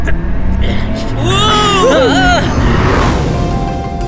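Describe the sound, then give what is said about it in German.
A car speeding off fast on an urgent drive to a park: a loud engine roar with wavering, whining tones over a steady rumble. “Georg, könnten wir schnell zum Park fahren? Ja. Natürlich. Und zwar mit Karacho.”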